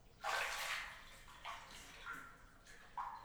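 Water splashes in a bathtub: a loud sloshing burst at the start, then a few shorter, softer splashes and swishes follow, with no talking.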